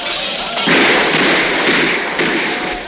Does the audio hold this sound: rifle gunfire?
yes

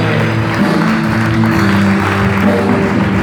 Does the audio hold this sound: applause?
yes

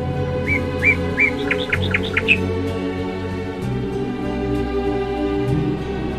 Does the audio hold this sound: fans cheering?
no

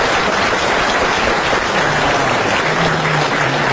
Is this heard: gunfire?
no

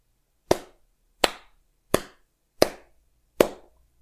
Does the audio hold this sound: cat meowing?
no

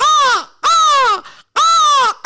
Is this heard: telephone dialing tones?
no

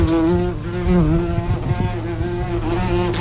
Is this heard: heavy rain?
no

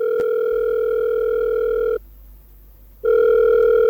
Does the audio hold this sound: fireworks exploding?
no

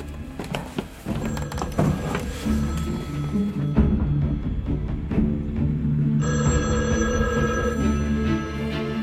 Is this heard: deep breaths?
no

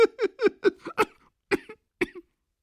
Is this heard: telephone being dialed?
no

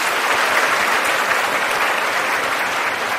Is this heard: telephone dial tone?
no

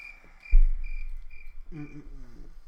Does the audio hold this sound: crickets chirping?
yes

